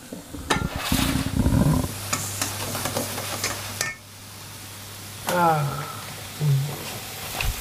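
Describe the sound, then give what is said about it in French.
Butter melts and sizzles in a pan with a faint, steady hiss beneath people talking in French, broken by a few light stirring clatters. “Là, il y a du beurre qui fond, là.”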